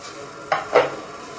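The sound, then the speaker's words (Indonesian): Noodles drop into a pot of boiling water while vegetarian meatball soup is cooked. Two brief, soft splashing bursts rise over a faint steady background, with no voices. “kemudian mie kita masukkan.”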